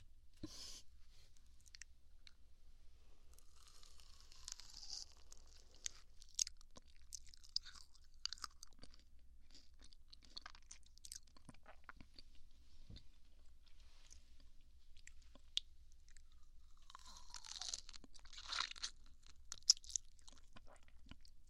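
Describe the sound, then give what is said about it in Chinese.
Someone eating a strawberry, with soft wet chewing, crunching bites and small mouth clicks, faint and intermittent over a long quiet stretch, with no talk. “第一个草莓，谁吃啊？啊，好，我吃。”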